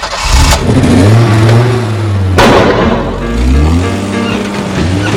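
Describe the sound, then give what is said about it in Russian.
A two-seater car engine starting and the car lurching away in jerks, with a loud rumbling engine whose revs swell and ease and a sharp burst of noise midway. “Зажигаются фары, и машина рывками трогается с места.”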